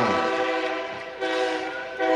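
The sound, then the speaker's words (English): Train horn blaring as a train passes near a football stadium during a game, a loud, chord-like blast that dips briefly and swells again in a few pulses. “First train of the game. I was warned that there was going to be plenty of trains during this one. This is the first one.”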